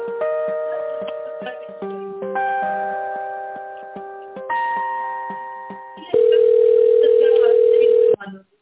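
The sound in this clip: Electronic telephone tones play while a call is being transferred: a run of stepped synthetic beeps at changing pitches, then one loud, steady tone held for about two seconds before it cuts off.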